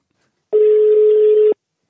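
As a telephone call is placed, one steady low ringing tone sounds for about a second, then silence, then a brief click at the end.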